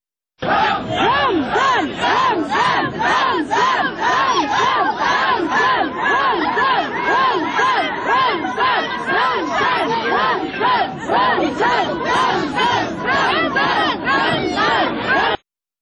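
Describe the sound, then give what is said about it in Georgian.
A large rally crowd in central Grozny, Chechnya, chants Allahu Akbar and the Chechen leader's name. Many voices shout loud, rhythmic syllables in a steady pulse for about fifteen seconds without a break. “გროზნოს ცენტრში შეკრებილი ადამიანები კი ხმამაღლა გახვიდოდნენ ალაჰ აკბარს და ჩეჩნეთის ლიდერის სახელს.”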